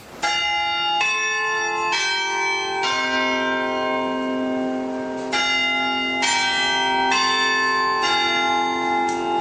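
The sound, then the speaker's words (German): Westminster chime rung by tower bells of the Red Tower on the market square in Halle: eight resonant bell notes in two groups of four, with a longer sustained note and pause between the phrases, and long ringing decay. “Also zeitlich war es nicht korrekt, aber den Westminster-Schlag, den kennen Sie doch. Ja, so klingt's in Halle. Am Marktplatz vom Roten Turm.”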